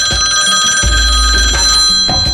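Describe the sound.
A telephone rings loudly and without a break for the whole moment, a bright, steady electronic ring signalling an incoming call.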